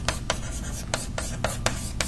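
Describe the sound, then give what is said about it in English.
A triangle being drawn during a mathematics lecture on simplices produces a regular series of short, scratchy strokes, each a brief rasp, repeated many times at a steady pace. “let me draw it as a triangle”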